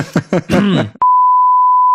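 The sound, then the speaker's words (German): A single steady, high-pitched electronic beep sounds for about a second, loud and even, following a brief stretch of talking. “Piep!”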